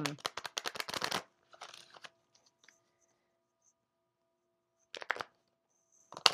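Oracle cards being shuffled before a card is pulled: a dense run of quick papery riffling for about a second, then a softer brief rustle and two short shuffling bursts later, separated by near silence.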